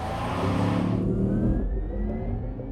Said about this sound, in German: Fi de Spaß um Fuieren zu kompletéieren, bringt de GTI-Moto 245 Pferd op Stroos.